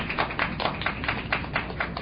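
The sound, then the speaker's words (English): An audience claps for a speaker in a steady run of rapid, even beats that keep a regular rhythm for the whole stretch. “And therefore, let's give Dr. Levine a big, big hand.”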